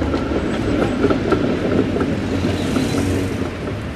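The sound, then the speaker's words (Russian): A tram passes on a city street at a pedestrian crossing: a steady, loud rumble with faint rhythmic rail clicks and squeals, easing slightly toward the end, with no voices. “Проезжает трамвай.”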